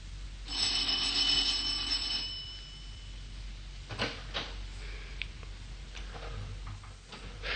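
Doorbell ringing at a fifth-floor apartment door: a bright, sustained ringing tone that lasts about two seconds, followed by a few faint clicks and soft knocks.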